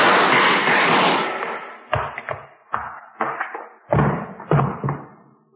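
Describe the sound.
A gunshot in a radio drama: a loud blast with a long fading tail, followed by a series of sharp, punchy thuds in an uneven rhythm.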